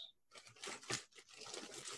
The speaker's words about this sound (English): Actually, hold on 1 second. Let me get a blade out.